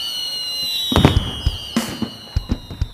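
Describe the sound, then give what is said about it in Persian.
Fireworks exploding in the sky over a city: many sharp bangs and crackling pops at an irregular pace, some loud and some fainter. “توی آسمون شهر موشا آتش بازیه.”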